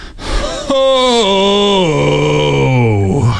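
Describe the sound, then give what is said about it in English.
A voice imitates a long, extended groan: one sustained moan that slides slowly and steadily downward in pitch for nearly three seconds. “there are different groans for different situations. There's the big one, the ooh, where it's got like three little hmms. There's the long extended one”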